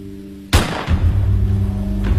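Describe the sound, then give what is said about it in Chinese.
One sharp, loud bang from a sniper rifle gunshot sound effect in a radio drama. It bursts out of a steady low hum, then falls into a rumbling, fading tail. “一声枪响，陈东惊醒了过来”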